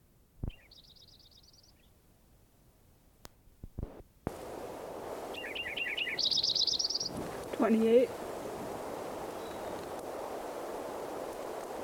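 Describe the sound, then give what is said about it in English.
A Lincoln's sparrow sings two short, high, bright trilled songs over low background hiss, each a quick run of buzzy notes, the second somewhat longer. “Lincoln Sparrow number 5 again. Trying to get some more recordings of him.”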